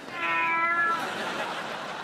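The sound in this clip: A cat gives a single drawn-out meow, a clear, loud, tonal cry lasting under a second, which trails off into soft background hiss.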